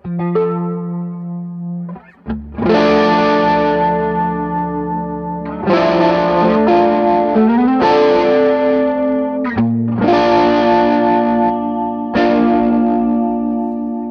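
Electric guitar with a chorus effect rings out a handful of sustained, shimmering strummed chords, each left to ring and overlap before the next, played alone without voices.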